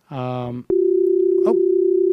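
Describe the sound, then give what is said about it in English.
Call tone from the Fire RTC internet calling service: a short, buzzy harmonic beep, a tiny gap, then a steady continuous electronic tone that holds at one pitch until the end. “That is the sound of Fire RTC, which I use now for most of the interviews.”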